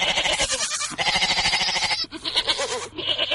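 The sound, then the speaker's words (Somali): Goats and sheep bleating at a livestock market in the Dayniile district of Mogadishu: many loud, overlapping, wavering cries crowd together with hardly a pause. “Halkani waa suuqa xoolaha ee degmada Dayniile.”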